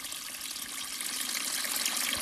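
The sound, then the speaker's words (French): Water trickles along a muddy forest path crossed by small footbridges, a steady, hissing, bubbling flow that grows slightly louder, with no other sounds. “Il y a de l'eau un peu partout. Hein. Des petits ponts là, sont installés pour franchir les passages un peu plus boueux.”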